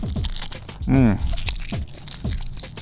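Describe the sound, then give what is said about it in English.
Crisp crunching of Smarties candy being chewed, many small sharp crackles in an uneven rhythm, with a short voiced murmur of enjoyment breaking in midway. “let's unroll some Smarties. Yeah. Give me that candy. Give me my candy.”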